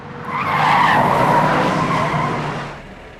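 A car's tyres skid loudly as it brakes to a stop, a harsh sustained screech lasting about two and a half seconds before it fades out, with no voices.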